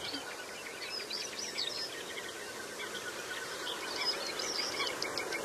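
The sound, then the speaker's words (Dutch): Whistling wings of common goldeneyes flying around: rapid, repeated high-pitched whistling pulses that come in faint, fluttering runs across the whole stretch. “Maar die brilduikers die doen dat ook. Hè? Ja, je hoort dat ze vliegen hier rond. Ja. Een fluitend geluidje.”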